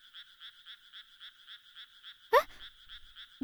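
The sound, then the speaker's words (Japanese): Frogs croak at night in the countryside among rice paddies in a fast, even run of many faint, high, pulsing calls. A sharp noise breaks in once midway, and another comes at the very end. “なんか田舎の夜って人の生活音がないんだね。虫やカエルの声は BGM みたいだし”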